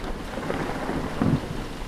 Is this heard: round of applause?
no